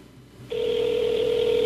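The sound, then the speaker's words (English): An unanswered call to a personal phone number rings through the receiver as a single steady electronic tone that starts after a brief quiet moment and holds unbroken to the end. “The fact they haven't answered, it's not a good sign. Yeah, this is like a personal phone number. Not a 1-800 number.”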